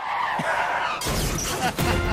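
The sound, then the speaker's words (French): A car skids when its brakes fail to slow it and then crashes: a short hissing screech gives way to a sudden broad crashing burst, with a second smashing burst near the end. “pas freiner, hein, parce que quand tu freines euh, et que ça ralentit pas, ça fait.”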